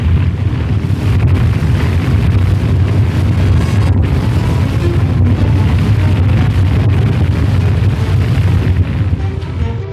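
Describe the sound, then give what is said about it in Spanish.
A radio-drama fire effect of flames engulfing a room in wooden shacks: a loud, dense, steady roar of rushing noise that continues unbroken throughout. “Y justo han salido cuando el fuego invade todo el cuarto.”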